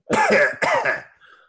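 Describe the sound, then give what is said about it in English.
A voice imitates a low hiss of gas escaping from something, producing two harsh, rasping throaty bursts followed by a faint, breathy trailing tail. “almost just like gas escaping from something. It's a very low sort of...”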